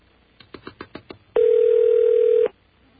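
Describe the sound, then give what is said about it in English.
Telephone line tones on a long-distance call: a quick run of six short beeps, then one steady mid-pitched tone holding for about a second before cutting off. “What do you think they do while the phone is ringing?”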